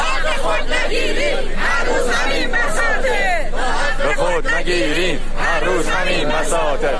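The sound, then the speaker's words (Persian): Social security pensioners chant slogans together at a protest rally in Yazd, a loud, dense mass of voices shouting in unison without pause for the whole stretch. “بازنشستگان تأمین اجتماعی در یزد هم شعار دادند.”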